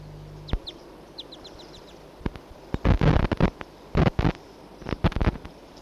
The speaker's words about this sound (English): Two wild birds together.